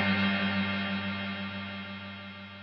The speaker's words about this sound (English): even on its shortest setting, I can hear the reverb end instead of just disappear into full fade out